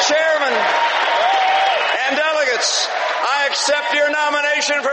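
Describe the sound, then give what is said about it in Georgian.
Thunderous applause from a political convention hall crowd as Mitt Romney accepts the nomination to face Barack Obama. A dense, steady roar of clapping runs throughout, with a voice speaking over it. “ხოლო მიტ რომნის თანხმობას, რომ მზად არის დაუპირისპირდეს ბარაკ ობამას, დარბაზში მკუხარი აპლოდისმენტები მოჰყვა.”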